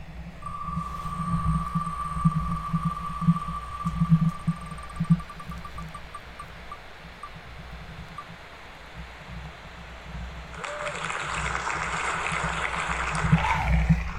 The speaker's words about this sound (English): I have painstakingly put about 110 different names into this random wheel spinner that we have here. And we are going to give this bad boy a spin.